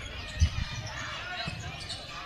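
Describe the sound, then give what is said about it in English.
During a basketball game, a ball is dribbled between the legs, with a few quick bounces early on under continuous play-by-play commentary and a steady crowd murmur. “His between the legs dribble was cut off.”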